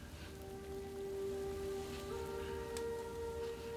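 Rain falling: a faint, steady hiss of drops runs evenly throughout, with a sustained low tonal hum underneath.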